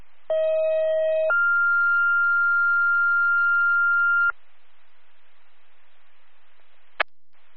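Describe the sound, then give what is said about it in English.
Two-tone dispatch alert tones sent over radio as a retone for a fire alarm activation: a steady lower tone lasting about a second steps up to a higher steady tone held for roughly three seconds, then silence and one brief click. “If you could attempt one more retone until we hear back from the facility.”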